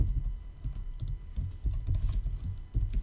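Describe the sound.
Code for a JSP web page is typed on a computer keyboard in a steady, fast run of soft clicking keystrokes, with no voices.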